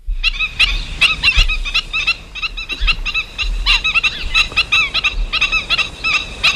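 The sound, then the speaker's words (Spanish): Black-winged stilts calling: many sharp, nasal yelping notes in rapid, uneven bursts, fairly loud, over a low rumbling noise. “Ahora es una cigüeñuela que, como su nombre indica, tiene bastante parecido con su prima mayor, la cigüeña.”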